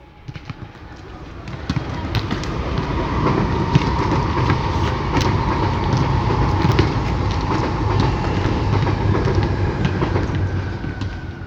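Medellín Metro train passing overhead near Universidad station, heard from the sports courts beneath the rails: a broad, steady rumble builds over the first two seconds, then holds loud with metallic clatter and rattle throughout.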